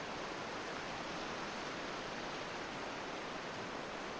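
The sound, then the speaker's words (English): River water flowing past: a faint, steady, even rushing wash that runs unbroken from start to finish, with no voices. “The water flows past”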